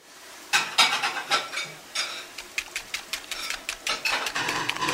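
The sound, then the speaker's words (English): Pots and dishes clatter in a kitchen while Mum cooks, with many sharp, irregular clinks and knocks coming in quick bursts. No one speaks. “This is the kitchen. Mum's cooking.”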